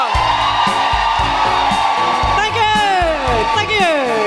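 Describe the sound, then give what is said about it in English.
Audience cheering and whooping welcomes a comedian at a live feminist comedy show in Belfast. Loud, sustained crowd noise carries repeated rising and falling woo-hoo glides. “Put your hands together. And make incredible, guilty feminist, welcoming, woo-hooing noises for Nuala McKeever!”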